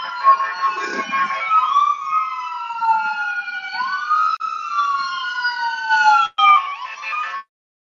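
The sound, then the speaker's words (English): Emergency vehicle sirens passing outside: loud wailing tones sweep up and down in pitch without pause for about seven seconds, heard alone, then stop abruptly. “you're going to hear some sirens maybe”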